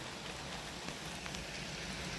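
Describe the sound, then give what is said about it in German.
Rain falling on a windowsill makes a steady, dense patter and hiss. It holds an even level throughout, with no talk. “Und jetzt geht es weiter mit Regengeräuschen von meiner Fensterbank.”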